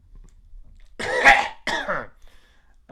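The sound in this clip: Throat clearing: two harsh, rasping bursts close together, the first longer and louder, with quiet around them.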